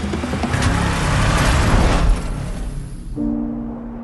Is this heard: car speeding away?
yes

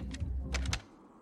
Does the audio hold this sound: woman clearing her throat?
no

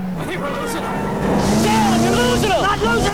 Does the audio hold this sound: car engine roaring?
yes

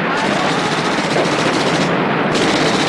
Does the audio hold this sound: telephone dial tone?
no

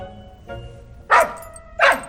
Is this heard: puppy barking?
yes

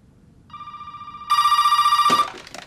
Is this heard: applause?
no

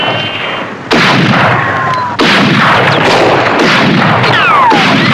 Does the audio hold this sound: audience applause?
no

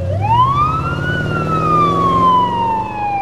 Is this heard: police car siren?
yes

